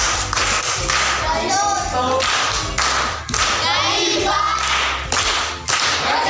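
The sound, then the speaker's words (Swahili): Children clapping for a classmate who solved a riddle at a primary school gathering: a loud, continuous burst of hand claps with children's voices mixed in throughout. “Makofi kwa shangazi.”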